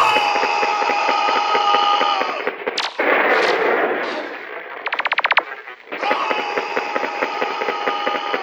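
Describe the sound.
Gunfire in a lobby: a heavy blast of shots, then a fast, crackling string of rapid machine-gun-like fire, loud over a steady, pulsing music bed that drops out during the shooting and then returns.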